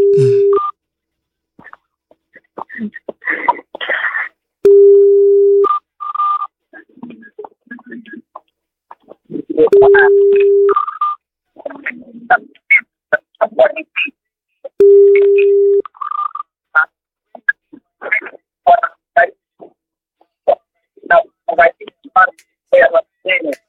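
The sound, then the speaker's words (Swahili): Telephone keypad tones and a ringing tone while placing a call: quick dialing beeps and four steady, mid-pitched ring tones spaced a few seconds apart, with a voice talking between them. “Wacha tumpigie simu. I hope namba yake inafanya kazi. Inafanya kazi. Haya. Wacha tumpigie simu.”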